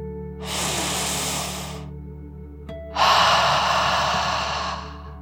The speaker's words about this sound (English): let's take one last deep dragon breath in and out.